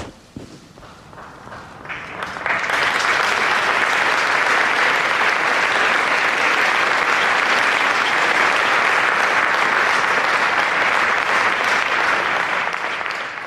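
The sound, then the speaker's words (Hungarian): Large crowd applauding the Pope's blessing at the end of a Latin liturgy. Applause swells over the first few seconds into a loud, steady, dense clapping that holds until the end. “Kedves hallgatók, ahogy szokásos módon egy nagy tapssal köszöntötték a Szent Atya szavait, az áldását.”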